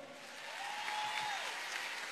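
Audience applause at a live concert with an orchestra, a dense wash of clapping that swells after the first half second and holds steady and fairly loud, with a faint sustained tone running briefly beneath it.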